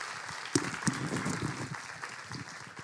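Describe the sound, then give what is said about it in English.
An audience claps to welcome a speaker, a dense, steady wash of applause with a few sharper claps standing out, lasting the whole stretch. “Let's put our hands together. Give him a warm welcome.”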